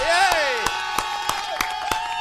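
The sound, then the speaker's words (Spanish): Applause comes as sharp, evenly spaced claps in a steady beat under a sustained, gliding tonal voice-like sound, with a light crowd wash behind. “¡Yeah! ¡Un aplauso!”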